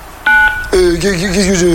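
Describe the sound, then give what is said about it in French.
Electronic tone on an adult phone line: a steady high beep of about a quarter second, then a woman's voice speaking with a wavering tone. “Si tu n'es pas majeur, raccroche immédiatement après le bip.”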